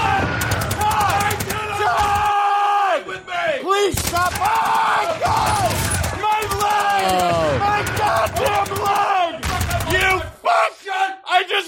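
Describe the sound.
Gunshots crack in sharp, loud bursts amid frantic yelling and screaming voices, the shots and shouts overlapping through most of the stretch.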